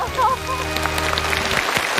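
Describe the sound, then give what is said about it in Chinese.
An audience applauds a teacher after a physics experiment on a seven-metre platform. The clapping is short and busy, a moderate, steady patter of many hands lasting about two seconds. “来来来吧，掌声给老师。”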